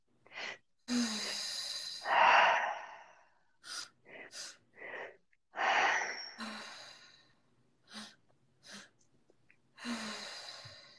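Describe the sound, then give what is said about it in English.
Forceful breathwork: a series of noisy, breathy inhales and exhales pushed hard through the airways, coming in uneven bursts of varying length with short pauses between, heard alone without talk. “Inhale, inhale, exhale.”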